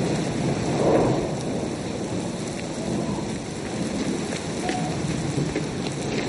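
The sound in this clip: Heavy rain falls in a steady, dense hiss that does not change, with a low rumble of thunder near the start and no voices.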